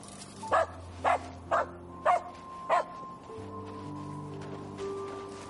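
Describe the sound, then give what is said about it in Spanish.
A dog barking: five sharp, evenly spaced barks in a quick series, loud and clear, followed by a quiet, steady, tonal background. “Le da la galleta y el perro ha salido corriendo.”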